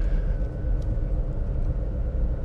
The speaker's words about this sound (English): What am I doing? I'm driving down the street. Driving down the street.